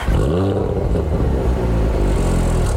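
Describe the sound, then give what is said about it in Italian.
A Cupra Formentor plug-in hybrid with a four-cylinder engine revs in a loud, throaty roar that climbs briefly, then holds a dense, rumbling drone. “Basta infatti sfiorare l'acceleratore per sentire la verve del motore, che nel modello che abbiamo provato è un 4 cilindri abbinato ad un propulsore”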